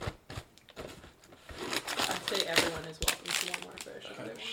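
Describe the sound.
A crinkly plastic snack bag of fish crackers is ripped open, giving sharp crackling and tearing rustles that come in uneven bursts while people talk.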